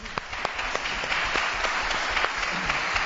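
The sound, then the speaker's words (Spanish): An audience applauds a musical group at a morning event. The dense, steady clapping carries on at an even loudness from start to finish, with individual sharp claps showing through the mass. “vamos a dar un aplauso”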